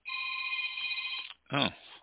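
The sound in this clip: A telephone rings with an incoming call: a bright, steady electronic ring held for just over a second, then cut off by a short pause.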